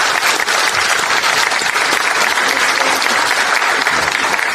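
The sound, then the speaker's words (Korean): Lawmakers applaud at a party caucus meeting, a loud, dense, steady clapping that holds at an even level from start to end with no pauses. “제가 원래 박수 한번 크게 쳐드리자고 하려고 이제 먼저 치셔가지고”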